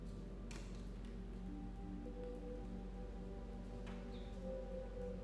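Gentle rain patters steadily on a surface, with soft scattered drop taps in a quiet, even wash that continues unbroken from start to end.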